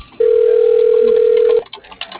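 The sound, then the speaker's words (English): A telephone tone while a number is being called: one steady, unbroken electronic beep lasting about a second and a half, then quieter line noise. “I'll try giving that number a call.”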